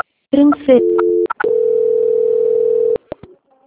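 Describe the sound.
A telephone tone plays while a call is transferred during a bank loan call: short electronic tones and clicks, then a steady, sustained tone lasting about a second and a half before cutting off.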